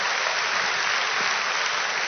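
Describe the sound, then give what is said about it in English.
A church audience claps together as an offering of praise during a service, producing a continuous, dense roar of hand claps at an even, fairly loud level from start to finish. “Let's give God another clap offering.”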